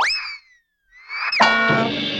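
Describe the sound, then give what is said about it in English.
A twangy Hanna-Barbera cartoon boing plays as Fred Flintstone is hit by a rock-hard newspaper. Two sweeping tones rise and then fall, with a brief silence between them. A loud, clattering impact with a ringing tail follows. “And they have some famous sound effects as well. Here's Fred Flintstone getting hit by his rock-hard newspaper.”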